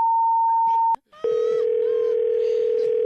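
Telephone dial tone after a call is hung up: a steady pure tone, then a sharp click and a short gap, then a lower continuous tone that holds to the end over faint background noise.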